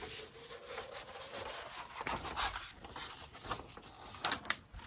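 Cutting a piece of gift wrapping paper in half produces soft, crisp rustling and scraping strokes, faint and irregular, with a few sharper bursts near the end.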